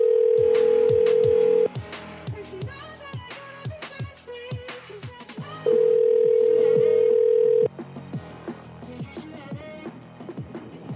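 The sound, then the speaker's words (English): A telephone ringing tone on a call: two long, steady buzzing tones of about two seconds each, separated by a gap of roughly four seconds that is filled with other sounds and voices. “They're calling you. They're calling you.”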